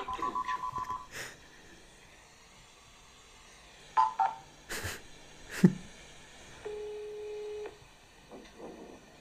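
A touch-tone telephone number is dialed: a fast run of short keypad beeps, then a couple more tones among handling clicks and thumps, followed by a steady ringing tone on the line.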